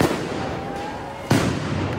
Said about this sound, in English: But as federal agents emerge in their dozens, those in gas masks run too. Rubber bullets fired into the darkness.